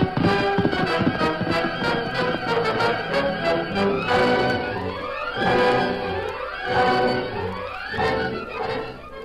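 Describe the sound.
A galloping horse, its hooves clip-clopping in a rapid, driving rhythm, loud and continuous throughout amid dense, busy sound.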